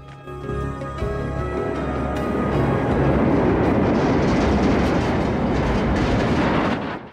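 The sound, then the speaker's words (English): A train travelling on rails at night rumbles steadily and loudly, a dense continuous roar with a faint rattling texture, swelling slightly and cutting off at the end, with no voices. “The train travels through the night.”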